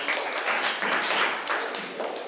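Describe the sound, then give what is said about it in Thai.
Students applauding in a classroom: a dense, steady patter of many hands clapping that fills the whole clip at an even, fairly loud level, with no voices. “เก่งมากค่ะปรบมือให้เพื่อนหน่อย”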